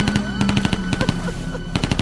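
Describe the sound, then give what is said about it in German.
Rapid gunfire from people shooting: many sharp, loud shots crackle in quick, irregular bursts across the whole clip with hardly a pause. “Mann, warum schießen bloß alle auf uns?”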